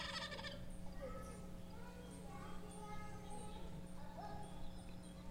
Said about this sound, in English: Think of Thanksgiving. A turkey. That's exactly right.